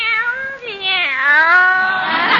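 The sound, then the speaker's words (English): A cat meows alone in one long, loud, drawn-out call. Its pitch wavers, dips and slides downward before ending in a raspy tail. “Meow, meow. Look at Minerva. She looks like the cat that swallowed the canary.”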